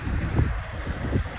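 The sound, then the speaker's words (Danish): Wind blowing across the microphone: a steady low, rumbling buffet with surges of gusting, heard alone without talk. “Jeg håber ikke, blæsten er for voldsom,”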